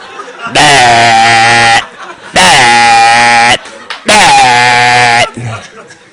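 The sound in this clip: Three long, loud sheep bleats, each held for about a second and a half on a steady, nasal tone, separated by short quiet gaps.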